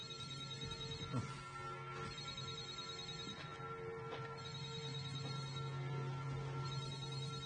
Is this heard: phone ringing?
yes